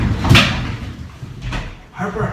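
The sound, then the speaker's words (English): A young child knocking on a door, a few dull, irregularly spaced thuds, the first the loudest, with speech heard alongside. “You hear knocking in the background, that's my daughter.”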